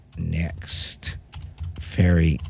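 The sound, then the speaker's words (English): Typing on a computer keyboard: a few sharp keystroke clicks and short bursts, with people talking over them. “And then I'm going to type it again.”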